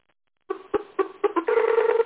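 A phone call being dialed over Skype makes several short, clear tonal beeps in quick succession, followed by a longer sustained ringing tone, heard alone with no talking.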